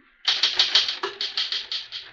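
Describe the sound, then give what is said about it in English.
Typewriter keys clacking as a document is typed, with about a dozen crisp, even strokes in a steady rhythm and no other sound. “Finish typing it and I'll sign it.”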